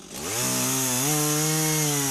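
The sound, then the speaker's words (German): A chainsaw engine starts up and runs loud and buzzing, its pitch climbing in steps as it revs up, then holding a steady high drone. “Es ist eine Kettensäge.”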